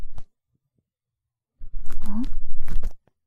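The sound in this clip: Crisp earwax being picked out of an ear: a short crackle, about a second of silence, then a longer stretch of close, crunchy scratching and crackling.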